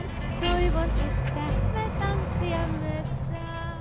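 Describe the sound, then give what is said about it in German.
An oversized motorhome truck drives through Helsinki with a steady engine rumble and road noise among city traffic, while people talk over it. “Nach 30 Stunden auf der Fähre sind die beiden in der finnischen Hauptstadt angekommen und fahren mit ihrem Wohntruck Richtung Osten.”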